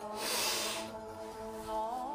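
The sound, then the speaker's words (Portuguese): Faint, long breath drawn in through the nose, a soft airy hiss that swells and fades, with a gentler breath following and quiet steady tones underneath. “Respira três vezes pelo nariz e solta pela boca. Vamos lá? Respira fundo.”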